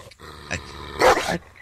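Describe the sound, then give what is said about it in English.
Two barks from a small dog: a short bark first, then a louder, longer one, sounding alone against a quiet background. “Calm down. Calm down. Here, cute little dog.”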